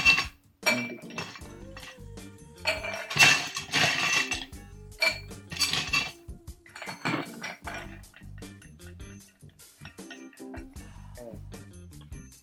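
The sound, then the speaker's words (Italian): Ice cubes clinking as they drop into a cocktail shaker, a run of sharp, bright glassy clicks and rattles at an irregular rhythm, loud at first and thinning out toward the end, with no talking. “Oltretutto il ghiaccio servirà per shakerare, quindi ecco qua, mettiamo qui e mettiamo anche due cubetti di ghiaccio.”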